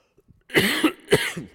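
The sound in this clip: A few harsh, rough coughs in quick succession from someone with a tickle in the throat, with no talk.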